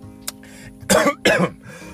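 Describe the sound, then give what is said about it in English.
A person coughs twice in quick succession, two loud, harsh bursts with quieter moments before and after. “Excuse me. Oh my God, no Rona. No Rona, no monkeypox. I don't know if the monkeypox make you cough, but I ain't sick.”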